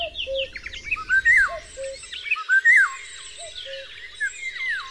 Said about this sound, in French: Et puis après, petit à petit, arrivent tous les oiseaux migrateurs. Donc il y a des jours, il y a le coucou, le loriot, le rossignol.